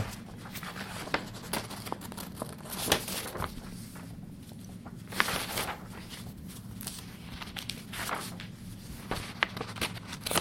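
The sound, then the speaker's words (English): Pages of a paper document are turned in a series of soft rustling swishes and crackles at irregular intervals. The sound is fairly quiet, with no one talking. “the sound of me turning pages.”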